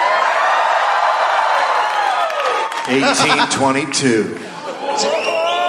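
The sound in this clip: A live audience at a show in Australia cheers and applauds loudly for about two and a half seconds. The roar then thins as a voice starts talking over its fading tail.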